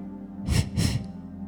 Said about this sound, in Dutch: Gewoon een korte F uit. En dan kun je ook achter elkaar.